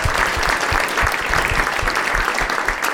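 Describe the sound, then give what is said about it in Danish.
Studio audience applauding to welcome a guest who is a mattress tester, a lively, sustained burst of many hands with distinct claps standing out, staying strong throughout without talk. “mine damer og herrer, giver en kæmpe stor hånd til madrastester.”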